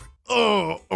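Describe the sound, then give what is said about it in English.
A voice imitates a groaning stomach after eating at a chain pizza shop: one drawn-out, low, moaning groan, with brief sounds just before and at the very end. “Here's the sound of my stomach after eating at a chain pizza shop.”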